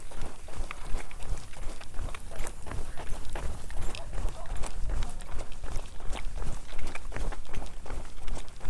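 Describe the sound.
Running footsteps thud in a quick, steady rhythm with many low, punchy strides, while a person talks over them at moments.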